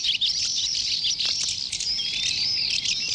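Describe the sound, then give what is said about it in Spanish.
Common house martin calls form a dense, continuous run of high, thin twittering chirps. A few sharper notes stand out briefly above the busy chatter. “Y ahora escucharemos el avión común”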